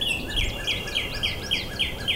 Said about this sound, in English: That's her. That's a female cardinal singing.